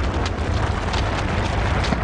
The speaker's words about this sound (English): A mountain is blasted apart and collapses in dry, light brown rubble.